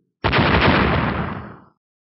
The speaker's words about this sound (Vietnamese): Một hồi nổ mạnh vang lên.